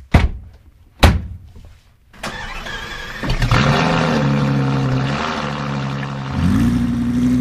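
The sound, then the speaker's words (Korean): Two sharp door-like thunks, then a red sports car's engine cranks and catches into a steady, deep idling rumble that swells higher again near the end. “시동 걸어.”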